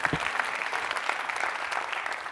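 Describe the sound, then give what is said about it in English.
An audience claps at a speaking event, a dense, steady stream of many hands at an even level from start to finish. “Really, I clap for you.”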